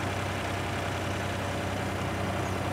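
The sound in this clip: Steady engine drone from a remote-controlled tracked crawler weighing about two tonnes, used for work on rough terrain. The low rumble runs continuously and evenly at a constant level throughout, with no voices.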